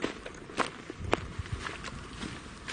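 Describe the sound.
Footsteps walk along at an even pace, a series of soft treads with a few sharper heel strikes standing out above low background noise.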